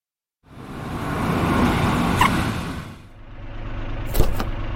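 A taxi car arrives: engine and road noise swell in from silence, peak, then ease to a lower steady rumble, with a sharp brief knock near the end.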